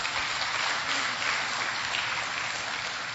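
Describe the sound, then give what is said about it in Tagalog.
Applause from a church audience clapping for the Lord, a dense steady wash of many hands that stays loud and even for the whole stretch, with no talk. “Pwede ba palakpakan natin ang Panginoon?”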